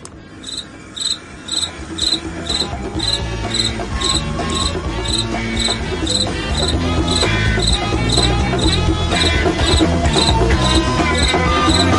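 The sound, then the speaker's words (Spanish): Crickets chirp in a steady, rhythmic stream of many rapid high-pitched pulses that continue without pause through the whole stretch, loud and unbroken. “gracias grillos, efecto de sonido increíble.”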